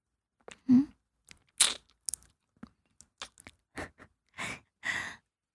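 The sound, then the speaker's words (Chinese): Soft, wet ASMR-style mouth sounds of licking an ear: a series of separate quiet smacks, slurps and clicks with short pauses between them. “喜欢吗？喜欢学姐这样舔你的耳朵吗？”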